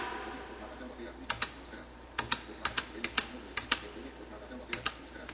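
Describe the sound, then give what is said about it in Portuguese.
Computer keyboard keys, Enter and Tab, are pressed in sharp, crisp clicks, mostly in quick pairs, arriving in a few short bursts separated by pauses over a faint, steady background hiss. “Eu vou teclar Enter. Agora eu vou continuar caminhando com o Tab.”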